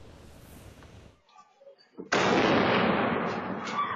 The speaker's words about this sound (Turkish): Önce patlama sesi geldi, ardından korku dolu anlar yaşandı.